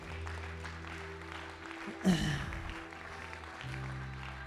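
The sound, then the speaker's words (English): A church audience applauds during an evening service with steady, fairly soft clapping that runs throughout, briefly swelling near the middle. “Can we give God a clap offering tonight?”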